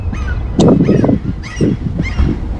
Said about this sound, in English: You can hear the birds, maybe. I think this microphone should pick up those birds.